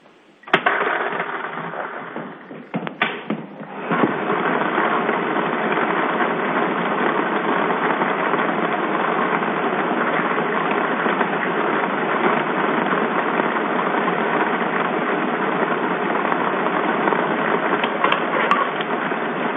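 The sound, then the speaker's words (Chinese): A lottery ball-drawing machine starting up at a lottery draw: a few knocks and clatters at the start, then a dense, steady whirring rattle of tumbling balls that holds constant to the end. “好的，彩票朋友，请拿好你们手中的彩票，马上为您启动摇奖机。”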